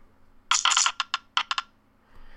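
Dice are rolled, giving a dense burst of hard, rattling clatter followed by several sharp, spaced clicks that die away into quiet.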